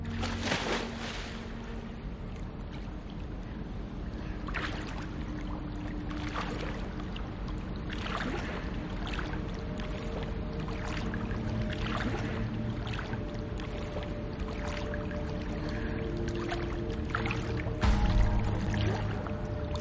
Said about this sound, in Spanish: En la piscina cubierta se mete en el agua. Nada hacia el centro.